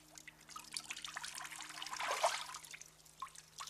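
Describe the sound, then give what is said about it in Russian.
Wet sandy slush dripping and trickling off a soaked person getting up from the ground, a faint irregular patter of drips that thickens into a denser trickle midway before thinning out again. “С него капает песочная жижа.”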